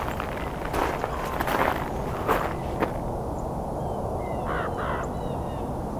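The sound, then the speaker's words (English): Harsh, croaking calls of a raven come in a few short bursts, some grouped close together, then fainter calls follow over a steady background hiss. “Raven again. Well, it's coming this way. Coming right for me here.”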